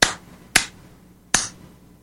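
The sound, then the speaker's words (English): Sparse applause from an American Legion audience: three lone, sharp claps, unevenly spaced across two seconds, each dying away quickly into near silence. “Now, folks, here's what that applause sounded like.”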